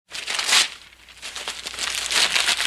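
Paper being torn up by a reporter in the western film The Man Who Shot Liberty Valance: crinkly, rustling bursts that swell loudly at the start, dip, then build again toward the end.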